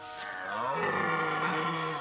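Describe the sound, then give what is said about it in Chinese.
A deer gives a low, moaning bellow-like call that holds for about two seconds and slowly swells in loudness, heard alone. “原来系只鹿嚟噶。只鹿咁靓嘅，好似识发光咁，仲眼金金咁望住我。”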